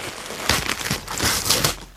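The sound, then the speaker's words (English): Wrapping paper crinkles and rustles as a present is opened, a continuous crisp, papery crackling that swells and ebbs for about two seconds. “All right, well, let me open my present here.”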